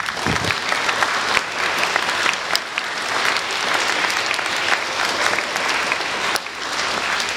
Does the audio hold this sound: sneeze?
no